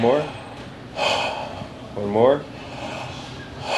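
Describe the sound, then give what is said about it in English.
A patient takes deep breaths through the mouth during a medical exam. Several loud, breathy inhales and exhales come in separate bursts with short pauses between them. “take a deep breath through your mouth, in and out. Out, good, okay.”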